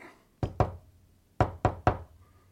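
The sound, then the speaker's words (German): Knocking on a door as an agreed signal: two sharp raps, a pause, then three more in quick succession, crisp and distinct against near silence. “Ich wollte mich gerade mit unserem Klopfzeichen bemerkbar machen.”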